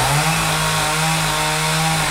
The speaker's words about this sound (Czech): Řezbář Jiří Nekola přede mnou pilou opracovává velký dubový kmen, ze kterého za necelý týden vznikne nová dřevěná socha